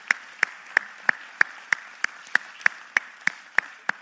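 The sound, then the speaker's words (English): Clapping at a church service to welcome guests: thirteen sharp, evenly spaced claps in a steady rhythm of about three per second, each crisp and distinct over a faint background. “Let's give them a hand of welcome today.”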